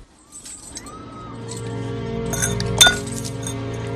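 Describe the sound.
A glass is knocked over, giving one sharp, bright clink about three-quarters of the way through. It rises above a steady tonal background.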